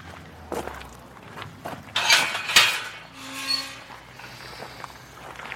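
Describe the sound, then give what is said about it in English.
Footsteps on a newly completed section of the South Loch Ness Trail, a few uneven footfalls with short crunching hits, fairly soft over a steady outdoor hiss. “we're now walking on a new section of the South Loch Ness Trail, the last major section that was completed August last year”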